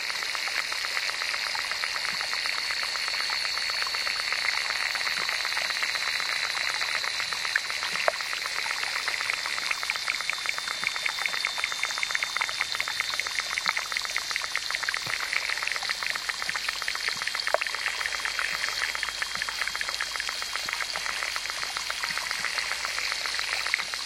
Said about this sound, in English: Using an underwater recording device called a hydrophone, David Dunn collected this collage of insect sounds from a small pond in Mora, New Mexico.